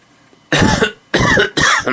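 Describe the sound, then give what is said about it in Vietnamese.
Three dry coughs in quick succession, harsh and fairly loud, each a short rough burst with brief silent gaps between and no talk around them. “Mông Ngào ho khan lên tiếng”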